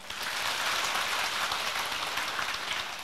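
An audience at a Buddhist gathering claps in dense, continuous applause that stays steady and fairly loud for about three seconds, with no voices on top.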